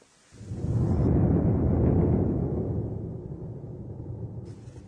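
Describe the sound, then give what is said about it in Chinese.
Thunder rolls in with a sudden onset, then a deep, loud rumble that holds for a couple of seconds before slowly fading away. “这是打雷的声音吧？ 对，用日语说呢是 ゴロゴロ。”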